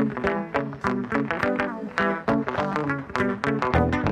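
Opening bars of a 1975 funk-soul single: a loud, dense band groove with punchy rhythmic hits and bright, layered instrumental chords driving steadily throughout.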